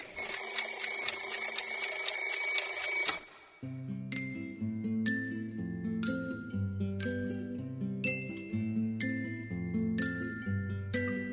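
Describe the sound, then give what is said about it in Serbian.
A mechanical alarm clock bell rings loud and metallic for about three seconds as a morning wake-up, then cuts off as a light tune with chiming notes begins. “Budilnik.”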